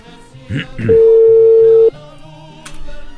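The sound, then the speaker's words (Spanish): A telephone dial tone while a call is being placed: one steady, loud, single-pitched tone lasting about a second, with brief voices and rustling before and after it. “vamos a intentarle de nuevo, a ver si tenemos oportunidad de que nos reciba la llamada.”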